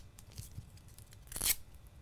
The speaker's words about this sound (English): So just with a little bit of gaffer's tape, take a little piece right now,